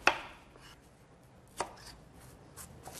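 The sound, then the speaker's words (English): A knife chops a potato into big chunks, giving a few sharp, sparse thwacks at irregular intervals. The first strike is the loudest and softer cuts follow, with no talk. “We're going to need a potato. You want to cut it up into big chunks.”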